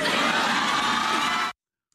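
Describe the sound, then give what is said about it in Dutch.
An enthusiastic audience cheers in a loud, dense burst of crowd noise lasting about a second and a half, then stops abruptly into silence. “Je hoort al dat gejuich. Het publiek was echt heel enthousiast.”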